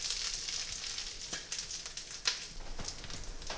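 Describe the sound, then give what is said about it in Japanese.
Food sizzling in an uncovered pan, cooked first over medium to medium-low heat and then left lid-off to cook off moisture. The sizzle is steady and hissing, broken by scattered sharp pops and crackles. “蓋をして中火から中弱火で3、4分焼いていきます。では3、4分経ちましたので蓋を開けて30秒ほど水分を飛ばしていきます。”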